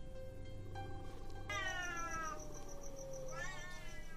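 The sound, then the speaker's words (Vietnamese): Cats meowing and screeching outside: a few long, drawn-out wailing yowls with bright, strained tones, each cry holding and bending in pitch, alone with no talk. “Thế nhưng cô nhanh chóng nhận ra đây không phải là tiếng trẻ con, mà là tiếng mèo kêu.”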